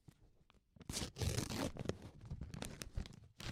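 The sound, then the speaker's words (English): A paper envelope is torn open with a soft ripping burst and crinkling paper, faint and fairly brief. “Opening an envelope like a normal person.”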